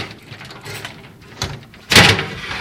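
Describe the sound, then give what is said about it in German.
A customs officer unlocks a glass display cabinet: a faint click, then a louder, sharper clatter as the cabinet opens near the end, over a soft background hiss. “Der Zöllner schließt eine Glasvitrine auf, nimmt eine goldene Uhr mit dem Label eines bekannten Schweizer Markenherstellers heraus.”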